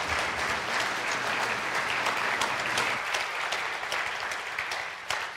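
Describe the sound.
An audience applauds its worship team with dense, steady clapping that holds throughout and thins slightly toward the end.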